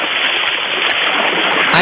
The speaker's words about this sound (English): I feel like I'm right at the ocean.